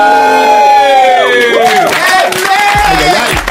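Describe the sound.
An audience cheers and yells after a call for more noise: loud, overlapping voices with rising and falling shouts that keep going throughout.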